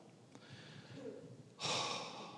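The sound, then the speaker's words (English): A preacher takes one quick, sharp breath during a sermon. The inhale follows a stretch of faint background hum. “I'm taking a breath. Okay, I know I talk too fast.”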